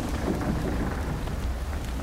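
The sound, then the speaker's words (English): Thunder during a storm over a boat at anchor: low rumbling beneath a steady, dense hiss of heavy rain, continuous with no clear breaks. “She don't like thunder.”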